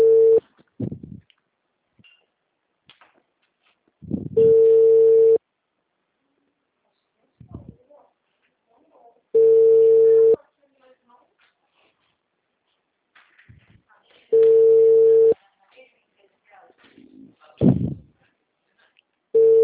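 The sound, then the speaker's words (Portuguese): Ringback tone of an unanswered phone call: four long, steady electronic tones about five seconds apart, with brief bits of speech and small noises in the gaps between them. “Espera aí que eu vou ligar, gente.”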